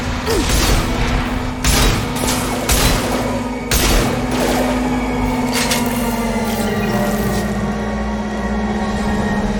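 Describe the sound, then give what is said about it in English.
Shotgun blasts in a shooting gallery, fired at a gunship: several sharp, booming bursts at irregular intervals over a steady low drone. “Alright, now we're in a shooting gallery shooting at the, we're gonna shoot our shotgun. Shooting at that gunship!”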